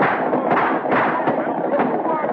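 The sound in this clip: Gunfire in a Western skirmish against riders on horseback: a dense, continuous barrage of crackling shots, muffled and steady throughout, with slight surges in loudness and no clear pauses.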